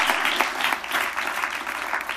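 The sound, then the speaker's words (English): Steady audience applause for a speaker at an arts-support gathering in Portland: dense, continuous clapping from many hands, fairly loud and even throughout, with no talk over it. “Let's give Mike Golub a round of applause for doing such great work.”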